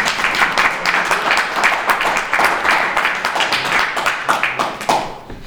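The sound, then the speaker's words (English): Steady audience applause with dense overlapping clapping, holding loud and even for several seconds before thinning at the end, with no clear speech over it. “So a round of applause there, please.”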